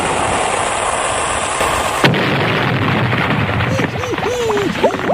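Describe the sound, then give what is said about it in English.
A gunshot or blast cracks once through steady rushing noise, sharp and loud against the constant hiss. “Nice shooting.”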